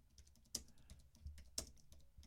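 Slow typing on a computer keyboard: very faint, sparse keystrokes with two distinctly louder clicks about a second apart and softer taps scattered between them.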